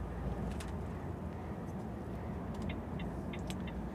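A car overtaking another vehicle on a long road trip: a steady, faint low rumble of engine and road noise, with a few brief high clicks.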